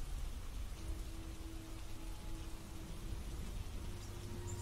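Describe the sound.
Steady rain falls under a dark, gloomy sky in a lonely rural village, a continuous soft hiss that stays faint and even throughout, with no voices.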